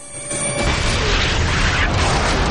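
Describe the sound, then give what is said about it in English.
A landmine shoots up from muddy ground and explodes at head height. A loud, broad blast builds within the first half second into a sustained, rumbling roar that lasts to the end. “The mine explodes at head height and a sheet of flame rips through Kent”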